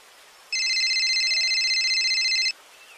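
A telephone rings as a listener calls in to a radio station: one continuous, bright electronic warbling ring of about two seconds, alone over a faint hiss.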